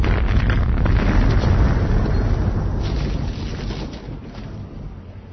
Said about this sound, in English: the thermonuclear blast not only obliterated the Fool's Gold